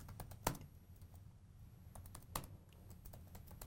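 Keys clatter on a computer keyboard while meeting notes are typed into a Markdown editor, a faint, uneven run of many quick clicks with a couple of sharper strikes standing out.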